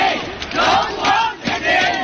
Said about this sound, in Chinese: 这是来自广州队球员冯浩然的家乡球迷团，加油方阵中不乏头发花白的长者。